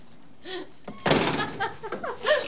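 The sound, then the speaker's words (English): A front door being unlocked and opened: light clicks and handling noise, then a louder thunk partway through followed by rattling and scuffing, with brief faint vocal sounds. “Alex stands inches from Corinne, eyeing her lustfully as she unlocks the door. She laughs as they step inside.”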